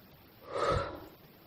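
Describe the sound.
A single slow, airy inhale from a person lying still in bed during a relaxation exercise, swelling gently and then fading over about a second, soft and alone with no talk.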